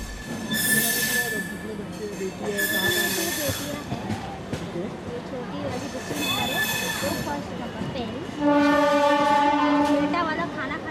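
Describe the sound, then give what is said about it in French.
A train rumbles and squeals beside railway tracks strewn with rubbish in the Dharavi slum, with high metallic wheel screeches and a loud horn blast near the end, while people talk. “Pour y parvenir, on marche à même les voies de chemin de fer qui sont remplies de détritus.”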